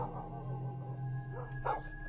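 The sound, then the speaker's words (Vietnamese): Dogs barking in a village at night, heard as a few faint, scattered barks and yelps over a low, steady hum. “Loáng thoáng đâu đây ở trong làng có tiếng chó cắn ma nhấm nha nhấm nhặng, chĩa sang bên này.”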